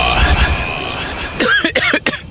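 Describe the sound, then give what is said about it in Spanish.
Harsh coughing from someone with the flu: a few rough, choppy bursts in quick succession in the latter half, following a steady stretch of noisy background. “A esta tos no me deja dormir.”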